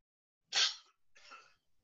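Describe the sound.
A person coughs: one sharp, harsh burst, then a softer, longer second burst and a faint brief sound after it.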